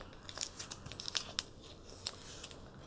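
Faint crinkling and tearing of packing tape as a heavily taped package is ripped open, with several sharp crackles and snaps over a soft continuous rustle.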